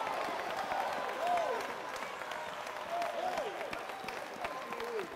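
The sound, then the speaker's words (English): A church audience claps along during a service, an irregular patter of many hands at a moderate level while a voice speaks over it. “Come on, give him a big hand clap. He wants to hear from us tonight. Come on, buddy, clap your hand.”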